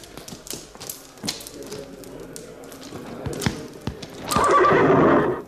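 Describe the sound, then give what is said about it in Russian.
Hooves clop on the ground in scattered knocks as a horse shifts about, then the horse lets out a loud, drawn-out whinny near the end that lasts about a second. “Ты на коня-то сядешь?”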